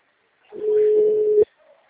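A telephone ringback tone for an outgoing call: a single steady, mid-pitched hum lasts about a second and then cuts off abruptly, leaving near silence.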